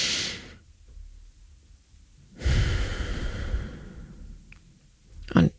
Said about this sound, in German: ich atme einfach 5 Sekunden ein und 3 Sekunden aus.